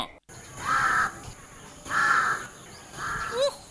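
Crow cawing at early dawn, the bird giving three drawn-out, harsh caws at a steady, even pace, each separated by a short pause, with faint background noise throughout.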